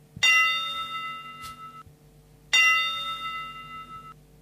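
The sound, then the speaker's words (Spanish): Two bright, bell-like tones mark a radio time signal for one o'clock in the afternoon. Each strikes sharply and then rings out over about two seconds, with no talk. “va a sonar el top de la una de la tarde y va a llegar el señor Ricardo Rodríguez”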